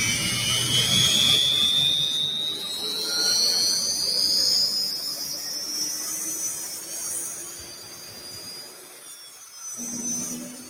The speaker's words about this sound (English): the turbine startup